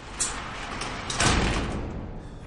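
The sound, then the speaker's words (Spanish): A metal roll-down shutter on a shop being pulled down. A brief knock starts a continuous rattling, rumbling roll that swells louder midway and then tails off gradually. “baja el cierre metálico de la tienda”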